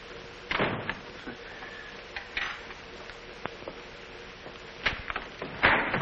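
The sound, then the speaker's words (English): A door leading to the back stairs opens with a few scattered knocks, rattles and thumps, a louder burst near the start and a few sharp clicks toward the end. “That's a door. It leads to the back stairs.”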